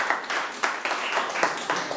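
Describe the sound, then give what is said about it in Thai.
Students in a classroom applaud a classmate with a short burst of brisk, uneven clapping that is moderately loud and steady throughout, with no talking. “ปรบมือให้เพื่อนด้วยครับ”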